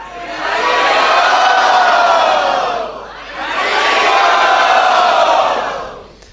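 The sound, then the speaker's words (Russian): A crowd loudly shouts 'Haribol' as a blessing, in two long, roaring collective shouts, each swelling and holding for a couple of seconds before dropping away. “Поэтому давайте благословим их громким харибол.”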